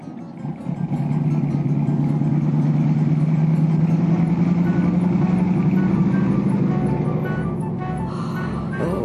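A car engine drones steadily as the car drives and arrives, its low hum rising slightly in pitch before easing and softening near the end, with no talking.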